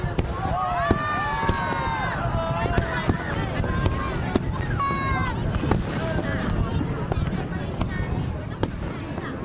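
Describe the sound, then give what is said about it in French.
Fireworks at midnight for Tet in Hanoi: many sharp cracks and pops scattered throughout, with a crowd's collective cheer and whistling tones over a constant dense rumble. “J'aime particulièrement le début du feu d'artifice avec ce cri collectif des gens comme un soulagement. Et ça a lieu à minuit, au moment du Nouvel An chinois. C'est le feu d'artifice qui a lieu au moment du Tet à Hanoï”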